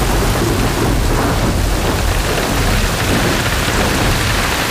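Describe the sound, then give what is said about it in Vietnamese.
Heavy rain with rolling thunder, heard as a loud, dense, unbroken roar that fills the whole stretch, with deep rumbling underneath the hiss of water. “trời mưa đóng cửa rồi”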